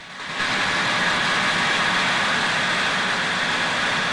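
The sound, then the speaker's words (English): Loud, constant engine roar from a car fitted with wings, an engine and a twin tail as it drives through a building, beginning abruptly after a brief quiet moment and holding a steady drone throughout. “Attached to the car's roof were a set of wings, an engine, and a dual tail. The car drives through the building and turns.”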